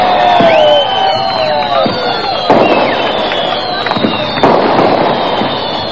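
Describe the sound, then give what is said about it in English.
Fireworks going off: whistling streaks glide across the sound, and a few sharp, loud bangs burst through. A murmur of crowd noise and cheering runs underneath. “but now lighting the correct firework. When you hear the bang, that will signal the start of new developments into the 1990s”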